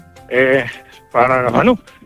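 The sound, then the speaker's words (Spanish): Sheep in a shepherded flock bleat twice, moving through wolf country alongside mastiff guard dogs. The two loud, wavering calls are clearly separated by a short pause. “venimos al cuidado de nuestro rebaño. Ellas marcan el paso, aunque nosotros las tenemos que ir parando porque van con la creencia para el norte”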